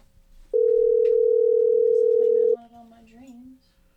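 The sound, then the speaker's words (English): A phone call's ringing tone sounds as one loud, steady, unbroken tone lasting about two seconds, followed by a person speaking. “Let's give him a call. Let's see if this is working. Oh. Oh, shit. Ring, ring, ring. It's very loud.”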